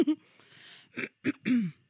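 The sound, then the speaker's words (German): A person with a slight cold clears their throat in a few short, rasping, guttural bursts, with brief pauses between them and no other sound. “Ich bin auch etwas angeschlagen. Sorry fürs Räuspern und Husten.”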